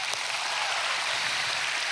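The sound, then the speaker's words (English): Applause from a church audience welcoming those joining from Edinburgh, a dense, steady wash of clapping that holds at an even level from start to finish. “Can we give them a hand, Edinburgh?”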